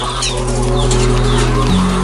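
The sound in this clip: Laying hens on an egg farm cluck in a loud, continuous flock chatter over a steady low mechanical hum.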